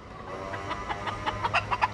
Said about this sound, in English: hens, chicks, and roosters that crow on the hour run wild in Key West.